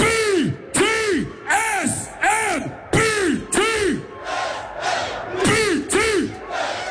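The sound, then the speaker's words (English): A festival crowd at the main stage of Ultra Europe in Croatia chants along in a rhythmic series of short, loud shouted syllables separated by brief pauses. The repeated pattern continues many times. “Before we start, we're gonna chant.”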